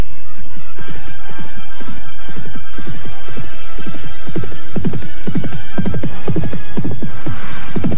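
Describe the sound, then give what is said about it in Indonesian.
Horses carrying a bridal couple gallop away from a village. Loud, steady, rhythmic hoofbeats pound on without a break for the whole clip. “Dan beberapa saat saja tanpa dapat dicegah, kedua pengantin itu telah berderap menjauhi desa Kalibagor.”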